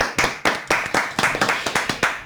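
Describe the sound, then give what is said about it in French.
Hands clapping in applause, a quick run of many loud, sharp claps in a fairly steady rhythm. “Je vais m'applaudir moi aussi pour faire un peu de bruit en plus.”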